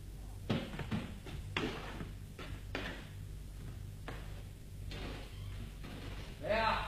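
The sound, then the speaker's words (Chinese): Knocking on a door late at night: a series of sharp, irregular knocks sounds over a low steady hum, with some talk. “您听，有人敲门。”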